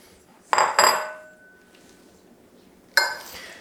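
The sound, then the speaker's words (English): Metallic rattling of a flour sifter being shaken back and forth over a food processor: three short, bright clinking bursts, two close together and one after a quiet gap. “and it just sifts out very nicely. You can shake it back and forth.”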